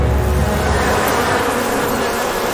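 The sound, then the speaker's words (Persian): A swarm of electronic bees buzzes in a dense, steady drone that stays loud and unbroken from start to finish, with no voices over it. “به فرکانس زنبورا نفوذ کردم، دارم هدایتشون میکنم. من ملکی این کندوام.”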